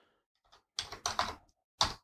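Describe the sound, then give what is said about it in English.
Someone types a web search on a computer keyboard: a few quick key clicks in short bursts separated by brief pauses, faint and with no voices. “I'm going to look it up right now just to see. I'm going to type in good presidential joke or funny presidential joke and just see the first one that pops up.”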